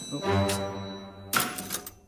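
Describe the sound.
A Chinese typewriter types characters onto paper, making a couple of bursts of mechanical clatter over a low, resonant ringing, fairly faint overall.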